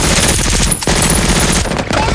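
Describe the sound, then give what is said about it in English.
Machine-gun fire from a shore fortification riddling landing craft: rapid, continuous bursts of dense shots that run through the whole clip with only brief dips between volleys. “In a fortification above the shore, unseen machine gunners riddle the landing craft.”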